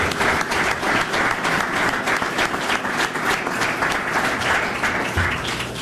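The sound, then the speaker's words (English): Sustained applause at a Detroit Pistons press conference welcoming the team's newest player, his family and agent; dense, even clapping holds at a steady loudness for about six seconds. “Let's give them all a hand and a welcome.”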